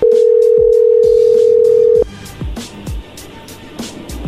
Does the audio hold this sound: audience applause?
no

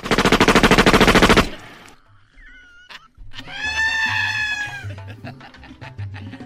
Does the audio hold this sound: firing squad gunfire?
yes

